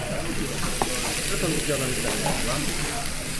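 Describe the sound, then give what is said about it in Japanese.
Beef kalbi sizzles on a hot iron griddle plate in a busy set-meal restaurant, a steady, dense hiss of frying that stays even and moderately loud throughout. “この鉄板のジュージューいう感じがいいですね。”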